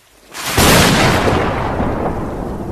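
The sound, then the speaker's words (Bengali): Thunder in a storm on a rainy night, with lightning flashing. A sudden loud, broad crack gives way to a long, heavy rumble that stays strong and only slowly eases off, with no voices. “তখন বিদ্যুৎ চমকাল”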